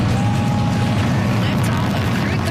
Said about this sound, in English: That is the sound of the beginning of a great adventure for Joshua Kutrick, the Canadian astronaut on board the Falcon 9 rocket that launched this morning from Cape Canaveral.